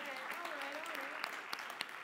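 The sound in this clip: Applause from an audience welcoming first-time visitors, a soft continuous patter of claps beneath a speaking voice, with a few sharper individual claps standing out toward the end.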